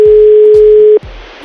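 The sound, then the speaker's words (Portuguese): A loud, steady telephone dial tone sounds while a call is being placed. It holds for about a second, then cuts off abruptly into a low hiss, with soft low thumps recurring in the background. “Então vamos ligar pra ela.”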